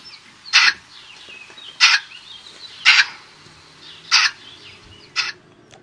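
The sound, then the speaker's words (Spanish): Bird calls: five harsh, noisy cries spaced about a second apart, each short and fairly loud against a quiet background, with no voices. “vamos con precisamente el sonido de ese ave nuevamente”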